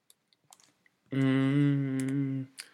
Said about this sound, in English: In fact, let's type that in. AC Milan wage bill.